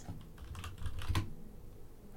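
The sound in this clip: Typing on a computer keyboard: a quick, faint run of key clicks with one slightly louder tap near the middle, without talk.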